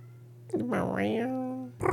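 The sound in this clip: A cat lets out one long, strained meow that rises and then falls in pitch, sounding oddly cooing, over a steady low hum.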